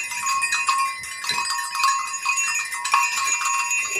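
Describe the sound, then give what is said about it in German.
Six small herd bells of different sizes jingle together in a continuous, bright metallic tinkling, with a few louder irregular strikes standing out from the steady ringing. “das sind wahrscheinlich die Glöckchen von einer kleinen Herde. Mhm. Also es ist so, dass hier sind insgesamt 1, 2, 3, 4, 5, 6 Glöckchen dran. Man hört das auch.”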